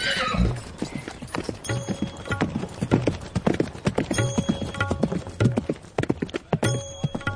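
Horse hooves clip-clop in many quick, uneven beats as a horse is ridden, with a loud whinny at the start.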